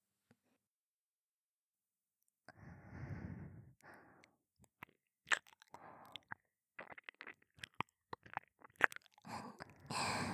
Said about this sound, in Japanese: 両耳一緒に舐められちゃうと思った。最初は片方ずつ舐めながら、